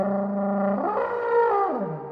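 An ancient S-shaped wooden serpent horn plays a groaning, buzzy note that slides up in pitch and then bends back down, thick with overtones and heard alone.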